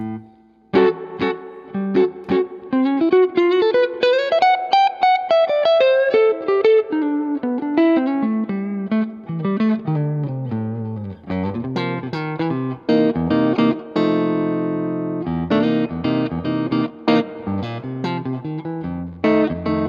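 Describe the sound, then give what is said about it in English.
Electric guitar played on its neck humbucker pickup through effects, with clear melodic phrases, runs of quick plucked notes and a slide up and back down in pitch, steady and unaccompanied for about twenty seconds. “It's a beautiful, beautiful guitar. Let us, play a little bit on the neck humbucker so we can hear that, if you don't mind.”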